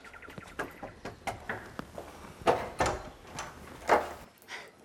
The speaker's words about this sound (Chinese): 哎，敲门。